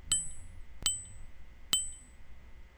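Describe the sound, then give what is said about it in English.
A lump of sintered tungsten rings as it is struck three times at an even pace. Each strike gives a bright, high, bell-like ping that fades quickly, with nothing else heard. “So that was the sound of sintered tungsten.”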